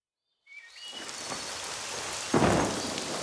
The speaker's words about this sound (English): Oh no! It's raining! We're getting wet!